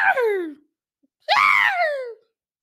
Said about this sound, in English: if you guys are hearing this intently, you'll hear there is this screaming noise in the background.